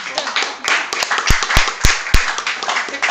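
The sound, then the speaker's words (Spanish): Applause for a couple introduced to an audience: a dense patter of many hands clapping, with a few sharp, louder claps standing out, steady for about three seconds. “fuerte el aplauso.”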